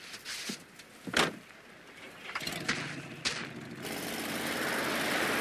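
An old car's engine, with a few sharp knocks and clicks first, followed by a steady rumbling drone that grows louder toward the end.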